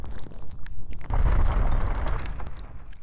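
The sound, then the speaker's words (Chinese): A magic seal on a door breaks open with a deep, booming burst about a third of the way in, followed by a sustained rumbling roar that slowly thins out over a busy, noisy background. “解开了，封印解开了”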